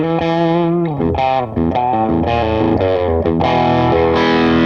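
An electric guitar on its humbucker pickup, played through a small Marshall tube combo. It sounds overdriven, with ringing chords and sustained notes that change pitch from phrase to phrase.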